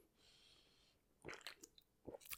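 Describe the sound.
Faint sips and swallows of an Ultra Red drink: a few short, soft, wet bursts, growing slightly louder toward the end.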